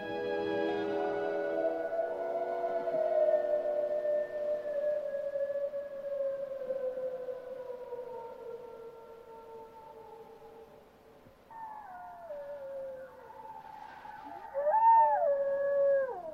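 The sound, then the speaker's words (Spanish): Wolves howl: one long, drawn-out howl slides slowly downward in pitch. Near the end, higher, wavering howls overlap it, and the last swells loudest. “pero el aullido de los lobos lo interrumpe”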